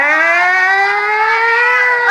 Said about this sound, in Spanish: Abra paso que llegó la ambulancia.